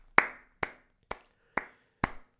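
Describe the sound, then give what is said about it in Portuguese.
Five crisp hand claps from a lone clapper in a slow, even rhythm, each sharp and short with a brief fade, separated by quiet gaps. “Uma salva de palmas para mim.”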